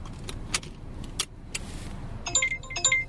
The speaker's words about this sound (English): I'm here in the car with an Uber driver